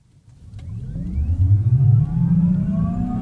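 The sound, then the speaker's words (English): Artificial driving sound from an older electric vehicle set to its largest setting: a synthetic, siren-like engine tone that swells in from near silence and glides upward in pitch, holding loud and steady with layered rising whines. “Listen, it's just a very quiet electric vehicle. Pretty pretty normal. See? Very, sounds very like quiet. An old EV. But yep. If you switch this up to largest change, listen to this.”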